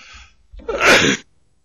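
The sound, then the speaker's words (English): A single sharp sneeze, a loud short burst that bursts out after a faint breathy intake and stops abruptly, with quiet afterwards. “I'm having a little trouble with the sneeze here”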